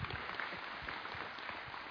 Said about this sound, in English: I'm really just here to troll for applause tonight, so if you guys could keep doing that a lot, it would feel great.